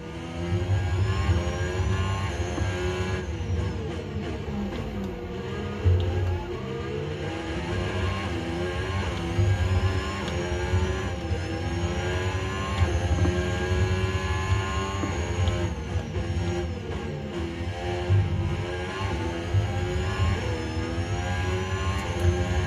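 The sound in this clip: A racing car engine in a video game whines continuously while the tyres are warmed up. The loud, high engine tone sweeps up and down in pitch as the car speeds up and slows.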